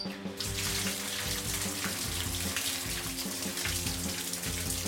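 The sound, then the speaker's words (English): Ice-cold water gushes from a tap into a bath in a bathroom, a loud, continuous splashing hiss that holds steady throughout without a break. “That is the sound of ice cold water running into my bath.”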